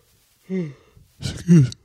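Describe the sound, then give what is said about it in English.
A person yawning, heard as two drawn-out voiced breaths with a falling pitch, the second louder than the first, with no talk. “excuse me, guys. Just yawning.”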